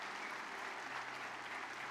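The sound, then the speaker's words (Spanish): Applause from a church audience during a worship service: dense, continuous clapping at an even level, with no voices standing out. “Vamos a dar un aplauso de victoria.”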